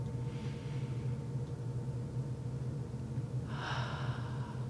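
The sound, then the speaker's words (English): Deep breathing in and out during a calming exercise before beginning: a soft breath early on and a stronger, louder breath near the end, both over a steady low hum. “In and out. Taking a few deep breaths before we begin, can center ourselves.”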